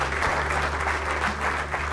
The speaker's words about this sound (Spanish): ¿Cuántos van a dar gracias a Dios aquí? Denle un aplauso al Señor.